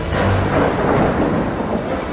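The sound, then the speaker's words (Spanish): Thunder rolls as a loud, dense rumble that fills the whole short stretch without any break. No voices are heard. “Los truenos son pisoteos de sus pezuños.”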